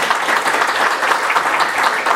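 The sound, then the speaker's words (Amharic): Applause from a church audience welcoming guests during a reconciliation gathering between leaders of two churches: dense, steady clapping from many hands that holds an even loudness throughout, with no voices standing out. “እነዚህ ወንድሞቻችንን በከፍ ባለ ጨብጨባ እንኳን ደህና መጣችሁ።”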